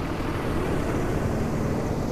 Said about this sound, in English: It's the sound of the 5 o'clock buses.